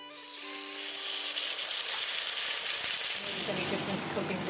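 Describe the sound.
Dry-aged Burren ribeye steak sizzles as it fries in a Dublin restaurant kitchen, a loud, continuous crackling hiss that holds steady throughout, with a low hum underneath at the start.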